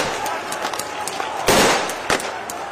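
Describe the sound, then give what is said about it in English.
Fireworks thrown at police during a street protest in Istanbul go off as two sharp, loud bursts over a constant, noisy crowd background. “demonstrators in Istanbul on Sunday threw fireworks at the police during protests”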